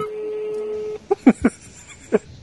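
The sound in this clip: A phone ringtone: a steady electronic tone, then a few short, sharp beeps spaced irregularly, with a voice present.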